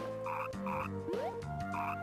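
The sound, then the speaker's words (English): Frogs croaking in a video game, three short raspy croaks at an even pace over a steady tonal background, with a brief rising tone sweeping up between the second and third croaks. “So frogs come up out of the water. And now frogs are floating on the water.”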